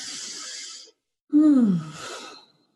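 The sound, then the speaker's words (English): A deep breath taken together: a long airy inhale of about a second, a short pause, then a louder voiced exhale that falls in pitch like a sigh and fades out. “So before we take too long, let's take a deep breath together.”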